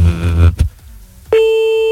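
A telephone call tone sounds while a caller rings someone back. A short burst of harsh buzzing noise fades to near-silence, then a loud, steady electronic tone begins and holds to the end.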